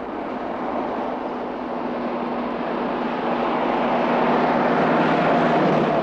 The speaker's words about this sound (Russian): Автомобиль едет по грунтовой дороге.